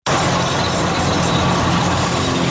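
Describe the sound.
A car engine runs as the car drives off, giving a loud, steady, even rumble that starts abruptly and holds without voices.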